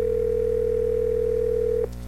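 Steady telephone line tone as a call connects: one continuous mid-pitched note holds for nearly two seconds over a low hum, then cuts off abruptly.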